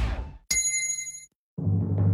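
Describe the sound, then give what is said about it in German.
A gong signals a drinking break with one bright metallic strike that rings with high tones before fading, followed after a short pause by another sound. “Trinkpause. Der Gong.”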